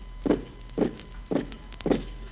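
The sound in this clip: Footsteps of prisoners being marched out to a courtyard: four heavy, muffled footfalls in an even, measured rhythm, fairly quiet, with no voices.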